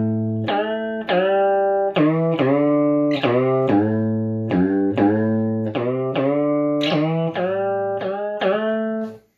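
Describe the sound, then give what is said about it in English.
Electric guitar notes through a bend echo effects pedal, many bright plucked tones with warbling, bending pitch, played one after another in a loud, continuous phrase. “Bend echo.”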